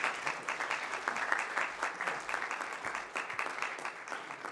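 An audience applauding to welcome two arriving guests, both colonels. Steady, moderately soft clapping runs throughout and eases slightly partway through.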